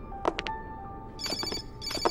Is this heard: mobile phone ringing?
yes